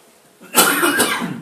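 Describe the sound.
A harsh, dry-throated cough bursts out abruptly, with a second push close behind and a short raspy tail after it. No other voice is heard.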